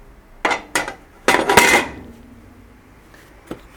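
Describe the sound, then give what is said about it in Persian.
Metal lid lifted off a cooking pot, a quick run of sharp clanks and rattling clatter, followed after a pause by a fainter single clink. “یه تکون میدیم. در قابلمه رو بر میداریم.”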